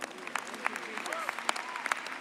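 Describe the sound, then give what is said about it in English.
An audience claps hands for the Lord during a church service. Scattered, sharp, fairly faint claps are mixed with raised voices calling out underneath. “Give the Lord a clap of hand.”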